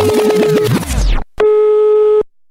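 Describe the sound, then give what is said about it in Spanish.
A telephone tone from an off-hook handset sounds as one steady, loud, mid-pitched electronic hum. A quick run of falling electronic chirps comes just before it, and a short gap separates the two. “la Q tenemos un teléfono que siempre tenemos descolgado para que todo el público piense que siempre nos están llamando.”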